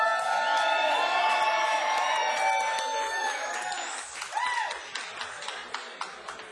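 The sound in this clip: Audience cheers and applause greeting a drummer introduced on stage: loud, high cheering voices at first, giving way to thinner, scattered claps that taper off toward the end.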